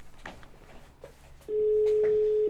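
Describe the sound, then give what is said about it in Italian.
A ringback tone on an outgoing phone call: one loud, steady, even-pitched tone that holds for about a second, following a stretch of faint, low background noise. “Vai, chiamiamo questo personaggio, lo facciamo presentare in diretta. Sì, squilla,”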